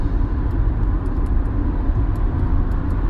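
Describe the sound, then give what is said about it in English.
Steady, loud road roar from car traffic on a freeway, a dense, unbroken rush of tire and engine noise that holds an even level throughout with no distinct pass-by swell. “I'm on the freeway and some guy just buzzed right past me.”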